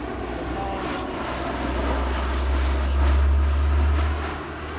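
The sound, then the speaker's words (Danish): A propeller airplane lands in the United States, its deep droning engine swelling to a peak partway through and then easing off. “Efter mange måneder på farten, så lander Louis Armstrong endelig hjemme i USA.”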